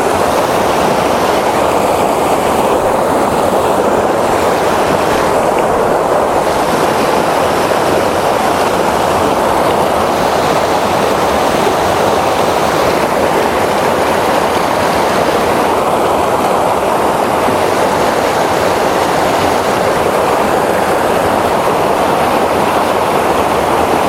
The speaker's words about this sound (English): So I've got the rock on the right there and the water coming on the left.